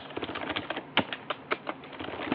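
Quiet, irregular typing on a computer keyboard while entering a command in a terminal, with many light key clicks tapping out in uneven rhythm, one or two strikes a bit sharper than the rest.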